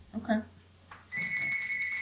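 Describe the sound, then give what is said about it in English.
A phone rings with a steady, high electronic tone that starts about halfway through and holds unbroken to the end, following a short burst of speech at the start. “Oh, somebody's phone's ringing.”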